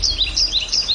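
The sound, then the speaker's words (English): Birdsong from open space in northern Baltimore County: a quick series of high, thin chirps repeating rapidly over about a second against a soft low background. “This is the sound of open space in northern Baltimore County.”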